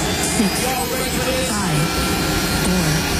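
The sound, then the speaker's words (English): An aircraft takes off from runway 8 kilo with a steady, loud jet engine roar, and a voice talks over it throughout. “5527 runway 8 kilo, you're cleared for takeoff.”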